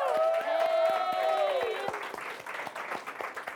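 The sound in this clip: An audience applauds as a speaker is welcomed onto the stage at a live talk event: a steady wash of clapping, with a sustained high tone riding over it during the first half before the applause continues on its own.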